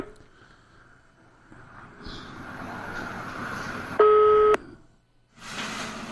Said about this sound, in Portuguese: Bora fazer as pazes com alguém. Boa. Tá chamando.